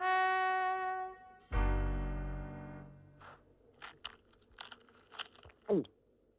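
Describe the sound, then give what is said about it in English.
Chewing on cheese, Wensleydale or Stilton: after a sustained tone and a heavy thud, a few short, crisp crunching bites sound faintly and irregularly. “Oh, I don't know, lad. It's like no cheese I've ever tasted.”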